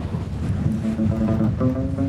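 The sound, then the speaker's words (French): Strong wind rushing across a high mountain ridge at altitude, a steady loud buffeting roar with a low humming tone running through it and no pauses or voices. “Et le vent aussi, là. Le vent est assez redoutable ici.”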